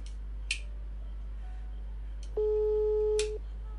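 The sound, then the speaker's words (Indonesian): Telephone busy tone after a call disconnects: a single steady, mid-pitched electronic tone held for about a second, preceded by a few faint clicks over a quiet background hiss. “sambungan kita terputus saudara-saudara”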